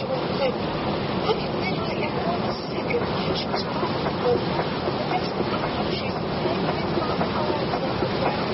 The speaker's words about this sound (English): that's not the roar of the ocean. It's the rumble of a train.